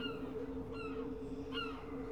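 City gulls give a few short, harsh calls, faint over a steady low hum.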